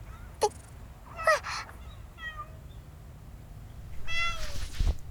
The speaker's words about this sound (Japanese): マスター、マスター、見て見て、わしのお膝に猫ちゃん乗ってきたぞね。